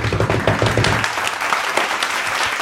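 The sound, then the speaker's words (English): Applause from a live audience welcoming a guest to the stage: dense, steady clapping that holds at an even loudness for about two and a half seconds. “Make some noise for Pat Bruner.”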